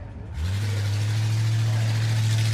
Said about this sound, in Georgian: ეს კლასიკური 1965 წელს გამოშვებული Ford Mustang-ი სინამდვილეში თავისთავად მართავს.